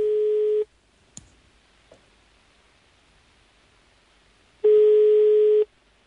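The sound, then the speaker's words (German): Telephone ringing tone as a call connects: two steady, loud tones about four seconds apart, with a couple of faint clicks in the quiet between them. “Der Teilnehmer wird angerufen.”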